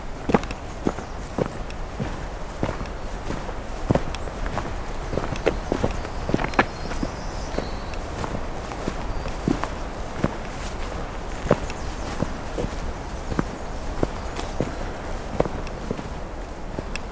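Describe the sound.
Footsteps walk through woodland of white cedar, black spruce, tamarack and hemlock. Many soft, crunchy steps land in a steady, even rhythm throughout, alone and without talking.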